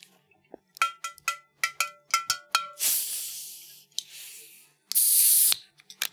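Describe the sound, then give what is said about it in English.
A bottle of Faygo red soda pop is opened: a quick run of sharp clicks and crackles, then two loud bursts of fizzing carbonation hiss, with soft rustling in between. “I have here in my hands a genuine Faygo delicious red pop. Let's crack them open.”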